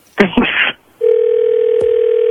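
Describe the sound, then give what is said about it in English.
A telephone call is being placed. After a short stretch of speech, a steady, continuous dial tone sounds alone and evenly, broken only by a brief click near the end. “So we're going to call her back now, and you're going to talk to her.”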